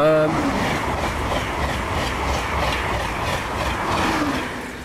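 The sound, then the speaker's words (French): A TGV high-speed train rushes through a village at full speed, producing a steady, broad roaring whoosh with a faint rhythmic rattle that swells slightly and then eases off. “Ça, c'est le TGV qui vient de sillonner le bourg de Maillé à toute vitesse.”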